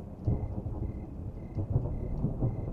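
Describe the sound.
Distant thunder rolls as wind picks up, a deep, continuous low rumble with a few slightly stronger swells and no voices.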